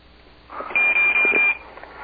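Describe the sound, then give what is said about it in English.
A high electronic disconnect beep on a phone line sounds as a few short, flat pulses in quick succession over a soft, hissy background. “I just heard the clear tone. We're fucking gone. The second you hear that 26 beep back, you know you fucking just got disconnected.”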